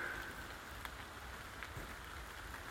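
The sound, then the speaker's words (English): Raindrops patter faintly through the leaves of a wooded area, a soft, steady hiss of rain with a few slightly sharper drop ticks scattered through it. “hopefully we will have a bit of protection from those lovely little raindrops that keep pattering through the leaves. You may be able to hear them in the background.”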